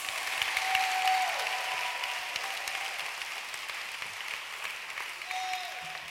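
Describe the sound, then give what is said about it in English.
An audience in church claps their hands in steady, continuous applause that holds at an even loudness from start to finish. “Can you clap your hands?”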